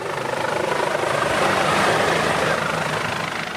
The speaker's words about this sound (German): Bevor wir ihm aber unsere Fragen rund um den Rettungshubschrauber stellen können, muss er erstmal anfliegen und landen.